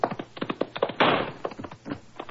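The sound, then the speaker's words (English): Service revolver gunshot: one sharp, loud bang near the middle, set among a run of quick taps and thuds before and after it. “Good shot, Watson. You kill me, you devil.”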